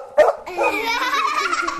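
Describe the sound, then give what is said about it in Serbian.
A dog barks with one sharp, loud burst, then gives a longer, wavering, whining vocal sound at a fairly steady loudness until the end. “A Neca ne ume da kaže Ogi. Zato Neca laje.”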